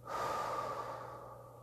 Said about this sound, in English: I want you to take a few more deep breaths in through your nose and out your mouth.